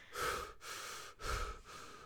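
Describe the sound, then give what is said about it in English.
A person breathing deeply, with a few heavy, breathy inhales and exhales in steady succession. The breaths are loud and airy, with no talk over them. “I'm still giving my opinion. I just need to breathe.”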